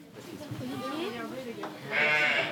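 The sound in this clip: A ewe bleats during a difficult lambing, as a person helps pull the lamb out. A few wavering, moderately loud bleats are heard, and the last is a stronger, brighter cry.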